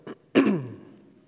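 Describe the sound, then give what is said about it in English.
Throat clearing from someone with a tickle in the back of the throat: a brief soft rasp, then a louder, harsher guttural clearing that trails off, with no speech. “I have a tickle in the back of my throat for some reason, so I'll apologize in advance for the throat clearing that will go on for the next several minutes.”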